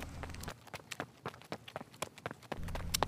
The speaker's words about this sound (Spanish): Los dos amigos están corriendo tan rápido como pueden y ya están muy cerca de llegar a sus casas.